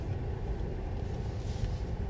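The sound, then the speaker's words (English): Low, steady engine rumble of a car that has stopped in front of the recorder, quiet and continuous with no voices over it. “Sorry, this, I'm literally doing a car talk podcast episode, and this car just like randomly stopped in front of me.”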